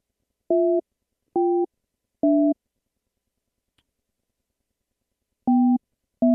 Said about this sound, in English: All right, got to dial him up.